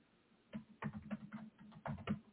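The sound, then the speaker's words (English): Faint typing on a computer keyboard: a few irregular clusters of soft, muffled key taps with short pauses between them. “I'm typing, so this is quicker.”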